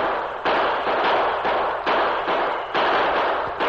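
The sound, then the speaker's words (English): Gunshots crack during a gunfight as bullets strike a wooden barrier. Many harsh, noisy bursts follow one another in quick, fairly regular succession at a steady loud level. “The gunfight continued without any let-up, and Soapy's men crawled closer and closer. The bullets ripped into the wooden barrier”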